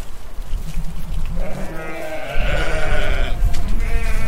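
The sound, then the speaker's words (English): Sheep bleat on a farm, a few loud, wavering bleats overlapping one another above a steady low rumble, with the later calls pitched higher. “So we've come up to the farm now”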